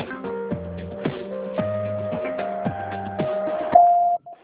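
Telephone keypad tones sound while a number is dialed: a run of short tone pairs, each changing to the next about every half second, ending in one longer steady tone before it stops.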